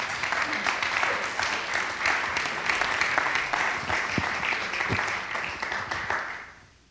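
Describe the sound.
Audience applause welcomes a speaker onto the stage, a dense, steady patter of many hands clapping without a break for about six seconds before quickly tapering off at the end.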